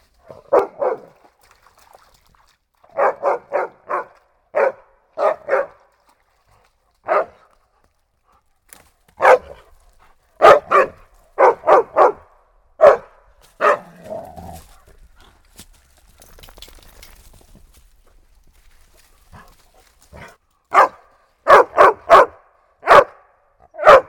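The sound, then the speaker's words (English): A dog barks at a stream while hiking on a creek trail, loud and alone. The sharp barks come in many quick clusters with short pauses, and faint trickling water fills the gaps between them. “wouldn't be much of a hike if he didn't find a stream to bark at.”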